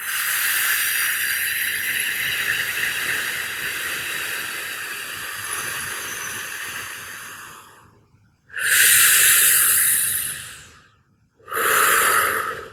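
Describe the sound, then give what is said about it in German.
Deep breathing in and out: one long, steady hiss of air lasts about eight seconds, then two shorter airy breaths follow after brief pauses, with no talk. “das klingt dann ungefähr so, wenn du die Luft einatmest. Und wieder ausatmen.”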